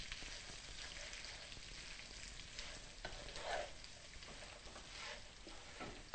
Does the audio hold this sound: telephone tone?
no